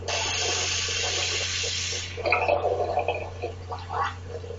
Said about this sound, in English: At least he washed his hands now.